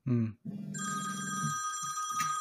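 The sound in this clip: An office telephone ringing with an incoming external call: a sustained, high electronic ringtone that begins just after a short burst of voice and holds steady, with lower murmuring sounds underneath.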